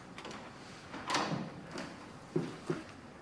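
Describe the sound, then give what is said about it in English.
An office door opens with faint handling noises: a few soft, short thumps and clicks spread unevenly, the last two slightly sharper and close together, otherwise quiet. “He opens the door to the office to find Fiona arranging flowers in a vase on her desk.”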